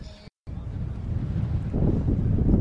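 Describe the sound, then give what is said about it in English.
Wind gusting across a high school baseball field during a game, a low, rough rumble buffeting the microphone. It drops out for a moment early on, then builds steadily and grows louder toward the end. “The wind now picking up and blowing straight out to center field.”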